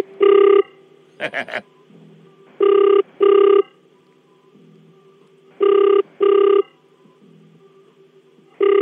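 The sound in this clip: A telephone rings after a number is dialed for a morning wake-up call: a steady-pitched electronic ringing tone repeats in double bursts over several cycles, separated by short silences, with a brief fluttering tone near the start.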